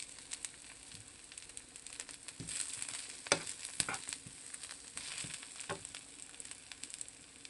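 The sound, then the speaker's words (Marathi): Onion with green and red chilies frying in a pan gives a soft, steady sizzle with fine crackles, broken by occasional sharper clicks and scrapes of stirring. “कांदा गुलाबी रंगावर परतून झालेला आहे, त्यात आपण हिरवी मिरची आणि लाल मिरची घालूया।”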